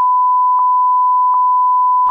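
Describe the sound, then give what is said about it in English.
A steady, high-pitched censor beep tone holds for about two seconds, loud and unbroken, with no voices around it. “Oh, yeah, I have to bleep that out as well.”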